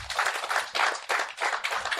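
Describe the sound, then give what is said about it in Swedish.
An audience applauds with dense, brisk clapping that swells in several uneven surges and continues without pause. “Applådera om ni känner till.”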